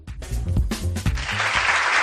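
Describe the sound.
Applause heralding a university orientation fair. After a short lead-in of other sound, a dense burst of clapping rises and holds steady to the end.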